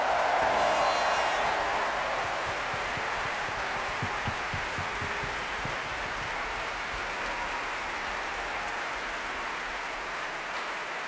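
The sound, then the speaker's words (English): Applause from a Proms concert audience honouring the performing artists forms a dense, even patter of many hands clapping, a little louder at the start and then holding steady to the end. “let's put our hands together and let's give a big round of applause to the hundreds of artists who have made this year's Proms the most successful ever with 57 sold-out performances. Let's hear it for everybody.”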